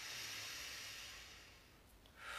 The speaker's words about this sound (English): Take a breath with me now. I'm taking the breath for myself.